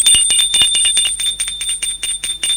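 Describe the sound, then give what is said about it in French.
A doorbell rings as a loud, bright metallic jangle of rapid repeated strikes that continues without pause. “Didier sonne.”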